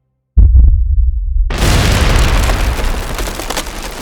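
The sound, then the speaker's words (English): A ship explodes as black powder stores in its open cargo hold ignite: two brief low thumps, then a massive roaring blast that turns into a long, loud crackling rumble. “The cargo hold already open to take in the new supplies had left the black powder stores relatively fresh upon the opening and then the reloads and just, it goes up in splinters.”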